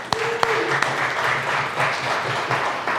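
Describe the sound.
A church audience applauds to welcome a new member, a dense and steady clapping that holds at an even, fairly loud level throughout.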